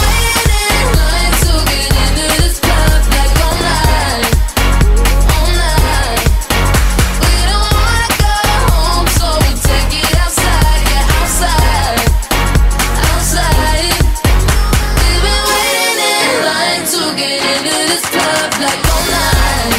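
A loud pop song plays on a chart show, with a driving beat, layered synths and vocals running continuously. The heavy bass drops out for the final few seconds.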